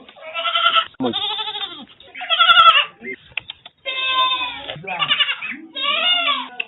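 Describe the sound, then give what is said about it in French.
Goats bleat in an enclosure behind a house that holds about twenty of them, with many wavering, nasal calls following one after another, some overlapping, loud and clear. “Richard a construit un enclos qui abrite une vingtaine de cabris”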